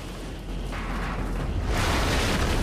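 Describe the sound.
An almighty explosion devastating a barn: a loud, broad roaring blast that swells in force partway through and continues as a heavy, sustained rumble to the end.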